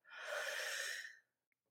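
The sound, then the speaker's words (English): A single slow, deep inhale through the open mouth, a soft airy rush lasting about a second that stops cleanly into silence. “You breathe in and out through the mouth and you take a really nice, slow, deep inhale and put your tongue down a little bit in the lower jaw to create that space.”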